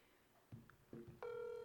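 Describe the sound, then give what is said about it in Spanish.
A telephone ringing on an outgoing call: a few soft clicks, then a steady electronic ringing tone begins and holds to the end, faint overall. “aquí está llamando, ya está repicando”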